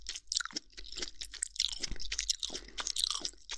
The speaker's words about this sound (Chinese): 太上头了，忍不住了。啊，再吃一口。好吃，